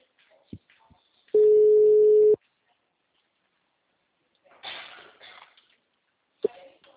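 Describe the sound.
A telephone ringback tone sounds while a call rings: one steady, low buzzing tone lasting about a second, followed later by faint rustling and a click.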